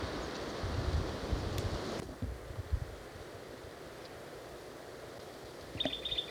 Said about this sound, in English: I'm in the bottom of a dry wash. That's the plain titmouse. Wind's blowing strong.